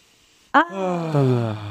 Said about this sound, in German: einfach so ein lautes Geräusch beim Ausatmen zu machen. Mir ist es komplett egal, das mache ich überall, wo ich bin. Ich mach's mal kurz.